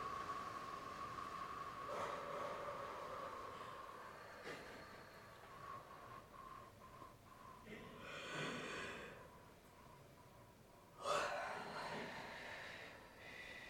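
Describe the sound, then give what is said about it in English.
Deep breathing during a guided meditation practice: two long, airy breaths rise out of a steady background hiss and faint hum. The second breath begins with a sharper, louder onset. “Take some deep breaths.”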